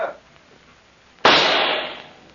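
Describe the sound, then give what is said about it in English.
A single pistol shot fired at an insect on a wall cracks out once after a quiet lead-in. The loud, sudden burst rings briefly and fades within about a second. “I'll wager you a month's pay that I can smash that insect with one pistol shot.”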